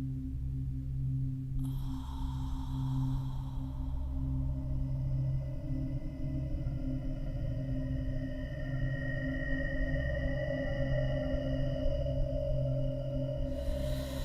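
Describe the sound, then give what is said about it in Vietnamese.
Eerie, ghostly wind from a sudden sinister gust raising dust, rendered as a steady, low, droning hum with sustained tonal layers. A thin, higher whine joins after a couple of seconds, and the sound continues unbroken throughout. “Một trận âm phong bất ngờ nổi lên, quấn theo gió bụi mù mịt. Âm thanh ù ù, ù ù nghe ghê rợn.”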